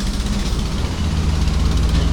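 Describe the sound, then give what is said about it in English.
A truck driving by, heard as a loud, steady low engine rumble with broad roaring noise across the whole clip and no talking. “That truck drove by,”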